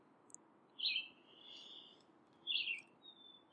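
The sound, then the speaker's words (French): Small birds chirp in the woods: two brief, high calls spaced well apart over a faint steady hiss, then a thin high whistle near the end. “Je vais entendre des petits oiseaux aussi.”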